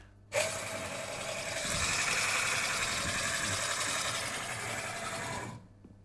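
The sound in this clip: An espresso grinder in a coffee machine grinds beans while its setting is adjusted between coarse and fine: a steady motor whir starts abruptly and runs for about five seconds before cutting off.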